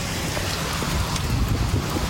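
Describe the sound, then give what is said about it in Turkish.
Heavy rain pours down in a flash-flooding storm in Bozüyük, Bilecik, Turkey, a dense, steady, loud hiss of rainfall with no break and no voices. “Sağanağın vurduğu bir başka yerse Bilecik Bozüyük'tü. Sele neden oldu.”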